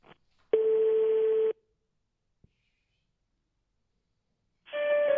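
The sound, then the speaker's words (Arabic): Telephone line tones as a call finds the line busy and no one answers: a steady buzzy tone about one second long, a faint click, a long silence, then the tone returning at the end, with no voices. “باقي الهاتف مشغول اوكيبي طيب لا احد يجيب”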